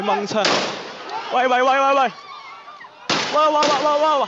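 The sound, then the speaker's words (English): Police gunfire at a street protest: a few abrupt, sharp bangs with loud shouting voices between and after them. “A stunned reporter narrates as a policeman shoots a masked activist Monday, outraging Hong Kong.”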